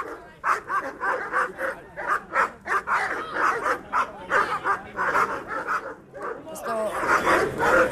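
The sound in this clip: Police dogs barking in quick, repeated bursts, many loud barks in an uneven rhythm, with voices mixed in beneath them.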